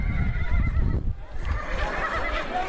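A horse neighs at a recreational area in Kabul where young people go horse riding, giving a loud, wavering whinny over a low rumble.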